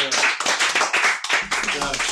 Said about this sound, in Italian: E facciamoci un applauso,